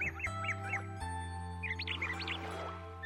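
Clear bird calls on a morning after night rain: a few quick, high chirps, then a second burst of warbling notes, over sustained musical tones.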